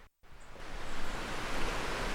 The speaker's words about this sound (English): Now you can hear the water, yeah, I can see it rushing down there.